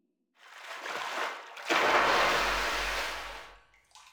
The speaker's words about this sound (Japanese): では流していきますね。